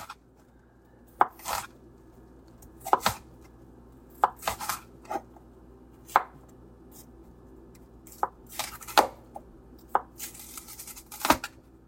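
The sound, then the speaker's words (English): Knife chopping an onion into rings on a cutting board: many sharp, crisp taps in irregular bursts, some single and some in quick pairs, over a quiet background with no talk. “Then we're going to slice our onion into rings.”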